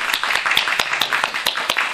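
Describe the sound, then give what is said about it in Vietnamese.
Audience applause at a Buddhist Dharma talk: many hands clapping in a dense, steady stream of sharp claps that stays fairly even throughout. “Quý vị đồng ý với cái quyết định này thì quý vị cho một tràng pháo tay.”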